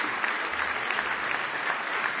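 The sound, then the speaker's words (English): Church audience applauding as a hand clap of praise, a dense, steady wash of many hands clapping that holds at an even, fairly loud level for the whole stretch with no voices. “Give the Lord a big hand clap of praise if you love Him.”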